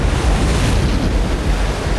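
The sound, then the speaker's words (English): Ocean waves crashing, a loud, continuous roaring rush of churning water and surf that stays dense and steady from start to end, with no voices. “The water crashed against her hand as if it was the face of a cliff.”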